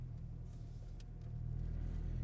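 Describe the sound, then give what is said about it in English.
Car engine and loud muffler rumble steadily during a turnaround, a deep, continuous drone that grows slightly louder midway as the engine revs. “All right. So now I have to go up and spin around. This is always nice. Hopefully you can hear me over this muffler.”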